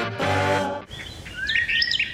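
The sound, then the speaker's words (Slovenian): Birds chirp in a few bright, high, quick tweets that follow a sustained, buzzy, harmonic tone at the start. “Že ptički čivkajo, kaj se maja dogaja.”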